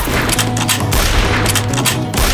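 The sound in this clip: Rifle gunfire aimed at a charging horse: a volley of loud, sharp cracks following one another in quick succession, with heavy low booms between the shots.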